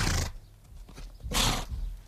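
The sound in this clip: A horse, ridden by a monk travelling through a forest, snorts and whinnies in two loud breathy bursts separated by a quieter stretch, with no voices.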